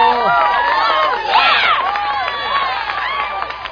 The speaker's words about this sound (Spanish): Así que un aplauso para ustedes, emprendedores de este Ecuador amazónico.